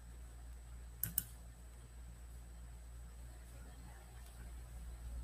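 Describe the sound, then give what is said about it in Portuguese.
Two sharp computer mouse clicks in quick succession, faint and alone over a steady low hum. “Tô clicando, não tá abrindo.”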